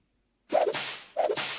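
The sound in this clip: Two whip cracks used as a sound effect. Each is a sharp, loud snap with a brief trailing swish, and the second comes under a second after the first, with no voices.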